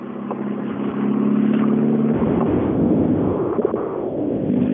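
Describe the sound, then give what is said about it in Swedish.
A rally car drives past on a forest rally stage. Its engine makes a loud, continuous roar that swells after about two seconds and stays heavy to the end. “Eh, häftig bil och som inte tävlas med riktigt frekvent i rallyskogen”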